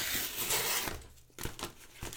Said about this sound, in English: Now I'm going to go in through the top. I'm just going to take the tape off the flaps.